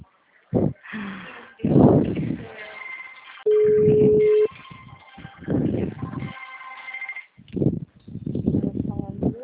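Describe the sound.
A telephone rings as a single steady, mid-pitched electronic tone lasting about a second, set among intermittent louder bursts of other sound.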